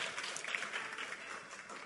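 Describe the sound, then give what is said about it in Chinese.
Faint applause from a church audience clapping for themselves after worship, a soft, steady wash of clapping with no clear individual claps standing out. “好像大家又进步了哦，给自己一个掌声哦。”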